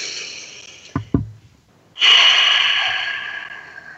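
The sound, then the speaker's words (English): A deep breath in comes during a guided breathing moment. Two short, sharp sniffs are followed by a pause, then a long, loud airy breath that slowly fades over about two seconds. “So let's breathe that in.”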